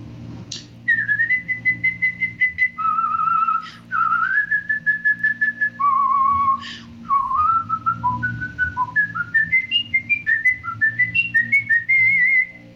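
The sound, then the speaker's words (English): A person whistles a tune alone, with clear, steady held notes at first, then quicker, shorter notes that climb higher toward the end, loud and unaccompanied. “Yeah, so I can't sing it anymore, but I can whistle it for you.”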